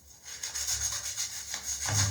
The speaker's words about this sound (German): Und dann packt ihr das eigentlich letztendlich einfach nur auf die Fugen drauf. Und dann wird geschrubbt.